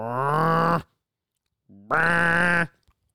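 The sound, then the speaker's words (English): Two long, buzzy honks blown on a goose call in a goose-like rhythm to bring flocks of geese in, the second honk opened by a short lower note, both loud with a clear pause between them. “and I hit it super rhythmically like a goose would do it. And called them all the way in.”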